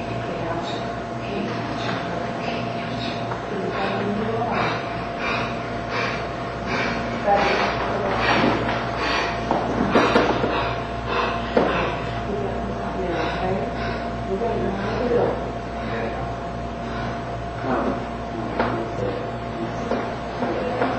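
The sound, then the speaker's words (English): An investigator breathing strangely during a paranormal investigation recording, with repeated rhythmic breaths over a steady hum and voices talking at times. “you're going to hear like one of the investigators, I think it's a girl, like start to breathe. Closest camera. Closest camera. Start to breathe weird.”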